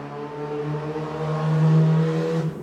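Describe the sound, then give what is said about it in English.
Car engines droning and revving outside at night, a steady low harmonic hum that swells louder midway through and then eases off near the end. “God, some right idiots driving around tonight.”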